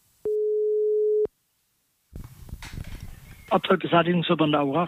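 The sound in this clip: A telephone tone sounds while an outgoing call is dialed to a landfill in Bavaria: one steady, mid-pitched beep lasting about a second. Silence follows, then rustling handling noise and a person talking.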